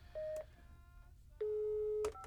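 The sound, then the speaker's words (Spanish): Telephone dialing tones: a short steady electronic beep, then a longer one, each ending in a click, faint over a low background hum. “Sí, déjale, voy a marcar a Natalie.”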